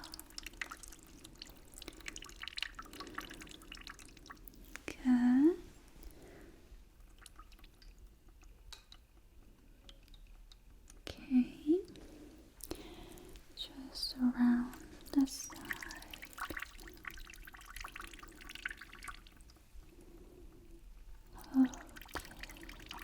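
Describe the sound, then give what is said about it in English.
Warm water being poured over someone's body in a relaxing spa-style pampering session: soft, faint trickles and drips that come and go, with a few gentle splashes and a quiet, soft-spoken voice in between. “Let me pour water all over your body.”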